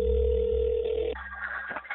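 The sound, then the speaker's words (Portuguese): A telephone tone on a wiretap recording of a phone call. A steady, low electronic tone holds for about a second, then gives way to a higher, thinner tone with faint line noise. No voices are heard. “À noite, o Robinho ligou para perguntar como tinha sido.”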